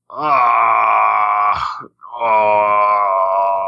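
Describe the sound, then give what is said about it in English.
A person groaning in exasperation: two long, drawn-out vocal moans separated by a brief gap. Each is loud and sustained, with a wavering, voiced tone that dips slightly at the start. “Like, I groan, and I'm like, oh,”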